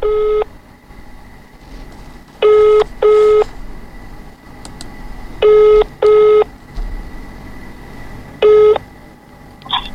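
Telephone keypad dialing tones as a caller number is entered for a radio phone-in. Six short, bright beeps come at irregular spacing, mostly in pairs, over a low background hum, with a faint blip at the very end.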